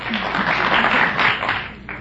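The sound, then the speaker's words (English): An audience applauds in a dense, continuous patter of clapping that holds steady and fairly loud for the whole two seconds, easing slightly just before the end. “Some people out there from Fonjilac were applauding.”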